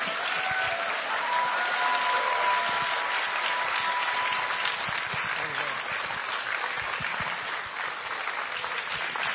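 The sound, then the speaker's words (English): A standing church audience applauds to welcome its pastor: sustained, even clapping from many hands that stays loud throughout, with speech faintly present. “我们一同站立，用拍手来尊荣我们的属灵父亲。”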